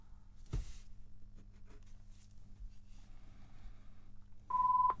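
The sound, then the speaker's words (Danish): A telephone rings with one short electronic tone of steady pitch near the end, after a few dialed digits, following a quiet stretch with faint background noise. “Ja, da ringer det.”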